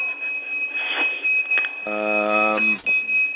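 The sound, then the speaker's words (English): A forklift's reversing alarm beeps in a factory as it backs up with a pallet: a shrill, steady electronic tone with a louder, buzzy beep partway through, heard under people talking. “Somebody's in a factory and there's a forklift backing up with a pallet on it.”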